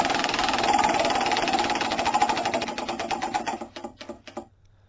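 A prize wheel spins and clicks rapidly against its pointer, a fast even ratchet that slows and spreads out into a few final separate ticks before stopping.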